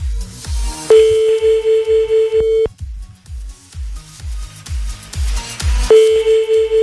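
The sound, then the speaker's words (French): Electronic remix of a telephone ringtone: a steady pulsing bass beat runs throughout, and a sustained bright beeping tone phrase enters twice over it. “C'est le remix de la sonnerie téléphone.”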